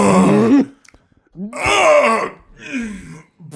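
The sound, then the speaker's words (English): A voice imitates a stifled, suppressed cough, like someone holding one back with a covered mouth in a library. It comes as three strained, muffled, groaning bursts with clear vocal tone and short pauses between them. “It sounds like he's like about to cough, but he's like doesn't want to. He's in like a library. He just took a big hit in a library. He covers his mouth.”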